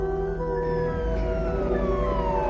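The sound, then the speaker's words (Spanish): An ambulance siren passes along a street beside a hospital at night, a loud, continuous wailing tone whose pitch slides gradually downward as it goes by. “Por una calle junto al hospital, una ambulancia pasa junto a Kimball.”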